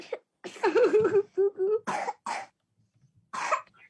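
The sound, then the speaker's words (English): Several harsh, raspy coughs, some with a throaty voiced rasp, come in bursts separated by short pauses. “Oh, that cough. I can't believe you're going to bring that to your dad's house. Cough is terrible.”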